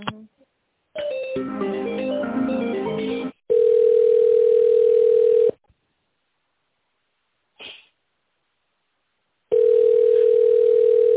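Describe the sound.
Telephone ringing tone while an office call is transferred to a colleague: two long, loud, steady tones of about two seconds each, separated by a few seconds of silence. A brief, busier burst of sound comes before them.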